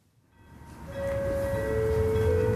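A passenger train bound for Oslo at Arvika station in Sweden: a rumble swells up from near silence, then a steady sustained tone sounds and is joined by a second, lower one, both holding over the continuing rumble.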